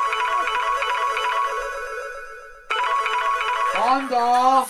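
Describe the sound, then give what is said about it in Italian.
Ringback tone on an outgoing telephone call: a steady buzzing tone, a brief break, then the tone again before a voice comes in near the end. “Ora lo chiamo, vai. Lo chiamo.”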